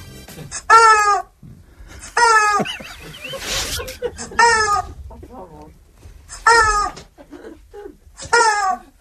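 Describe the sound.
A rubber chicken toy gives five loud, nasal, honking squawks spaced a couple of seconds apart, with people talking in the gaps between them.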